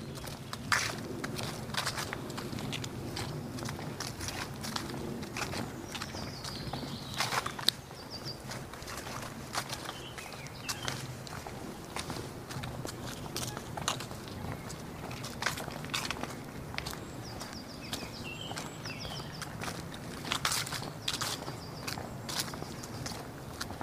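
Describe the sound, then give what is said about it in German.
Footsteps of people walking outdoors at a relaxed pace in fresh air, a steady run of soft crunching steps with small scattered clicks and no talk. “wir gehen einfach ganz entspannt. Erstmal ein bisschen spazieren, erstmal ein bisschen warm werden”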